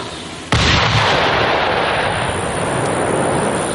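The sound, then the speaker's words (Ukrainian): A large bomb dropped on an enemy shelter explodes in one sudden loud blast, then a dense, sustained roaring rumble that stays loud to the end. “А слідом до ворога летить вже велика бомба, яка може повністю знищити укриття загарбників.”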